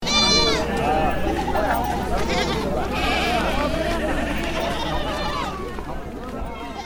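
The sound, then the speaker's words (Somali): Goats and sheep bleat at a busy livestock market in Somalia's Middle Juba region ahead of Eid al-Adha, with several wavering, high-pitched calls rising over a steady hum of crowd chatter and movement. “Diyaargarow xoogan oo la xiriira ciidda ayaa laga dareemayaa suuqa xoolaha ee magaalada Saako ee gobolka Jubada Dhexe.”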